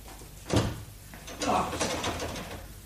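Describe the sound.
A locked bedroom door is tried, its handle rattling in two brief bursts about a second apart. Between them the door knocks softly against its frame.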